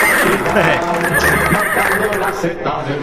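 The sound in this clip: Horse neighing sound effect: a loud whinny with a wavering, strained tone, played under voices talking.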